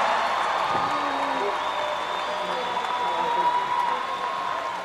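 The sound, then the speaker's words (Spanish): Steady applause from a crowd for a performer fills the whole clip at an even, fairly loud level, with a voice heard over it. “¡Un aplauso!”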